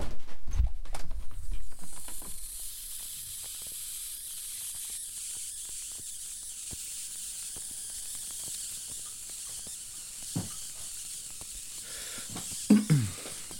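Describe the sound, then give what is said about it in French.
Fermenting kefir fizzes with a soft, steady high hiss, sprinkled with tiny crackling pops, while a few louder low knocks sit at the start and near the end. “Ah mais c'est le kéfir qui fait du bruit.”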